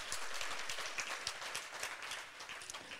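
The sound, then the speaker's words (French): A church audience applauds. The clapping is fairly faint and steady, a continuous patter of many hands that thins slightly toward the end. “On peut acclamer et remercier Toan.”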